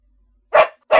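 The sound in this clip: Two sharp, loud barks from a black dog running out of a house. A brief silence separates the barks, with nothing else heard around them.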